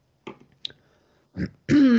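Throat clearing: a few short, rough bursts, then a longer, louder voiced rasp at the end.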